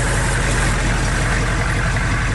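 A school bus engine idles in a loud, constant low rumble with a broad hiss on top, unchanging and without pauses throughout.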